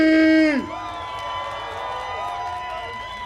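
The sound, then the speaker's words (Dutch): An audience cheers and whoops to welcome a performer at a dance event in Amsterdam. A brief shouted call at the start is followed by a steady wash of crowd voices. “Dus geef een warm welkom aan een van deze mensen. Laat je horen voor Mercy!”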